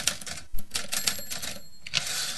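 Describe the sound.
Rapid typewriter typing from a poet's machine, with a dense run of sharp keystroke clacks and one heavier thump early on, continuous and fairly loud throughout.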